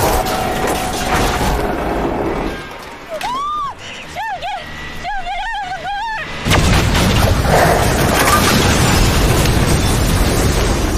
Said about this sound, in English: The trailer explodes.